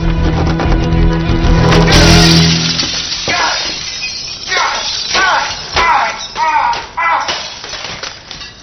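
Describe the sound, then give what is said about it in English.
Window glass is smashed with a loud crash and shattering. Voices then talk in short bursts. “You're at the window. Smash it.”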